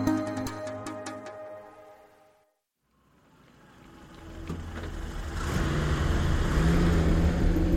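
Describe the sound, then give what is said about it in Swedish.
An army jeep engine drives down a long runway, its hum fading away to near silence before building again into a louder, steady roar. “En arméjeep kör ner för en lång landningsbana.”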